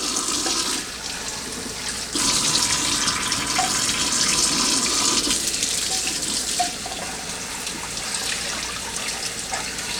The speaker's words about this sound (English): Alright, so we can kind of just get that rinsed off there.